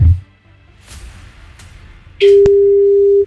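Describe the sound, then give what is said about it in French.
Ringback tone of an outgoing phone call to a contest caller: one loud, steady mid-pitched tone lasting about a second, starting sharply after a quiet stretch of low background sound. “Allez, c'est parti, on y va, on appelle.”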